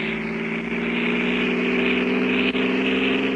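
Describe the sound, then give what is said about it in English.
A car engine drones as the driver steps on the gas on a rainy drive through lonely Allegheny country, a loud, steady hum with layered tones that holds throughout. “He hallooed at me this time. Hello! Hello! I stepped on the gas like a shot.”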